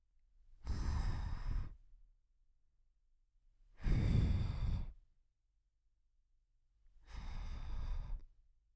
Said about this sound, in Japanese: 仕上げはお耳にふうふうです。